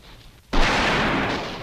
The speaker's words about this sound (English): Does the sound of the guns frighten you that much?